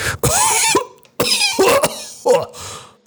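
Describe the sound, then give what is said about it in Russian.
Harsh, rough coughing as someone hacks up thick phlegm, coming in three loud, raspy bursts separated by short pauses. “Я откашлялся, выплевывая густую мокроту, пропитанную черной слизью.”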